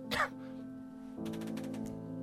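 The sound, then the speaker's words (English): A short, sharp cough bursts out once at the start, then gives way to a steady tonal backing that continues to the end. “No, don't turn it up yet. I have to cough.”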